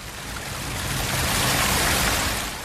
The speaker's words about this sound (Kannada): ಹೌದೌದು, ಮಳೆ ಜಾಸ್ತಿ ಆಗ್ತಾ ಇದೆ. ಮಿಂಚು ಗುಡುಗು ಕೇಳಿಸ್ತಾ ಇದೆ.